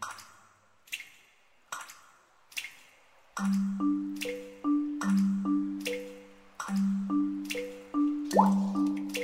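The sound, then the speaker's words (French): Water drops fall one by one onto a water surface in a steady rhythm. Early drops are sharp, dry taps; later ones become fuller, resonant, pitched plops that grow louder. “Tombant, tambourinant à la surface de l'eau qui fait le gros dos. Les entends-tu chanter, une à une, s'étaler sur la surface de l'eau qui bouge, crescendo.”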